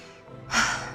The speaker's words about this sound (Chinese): 他站起身来，对着星妹来了一个深呼吸。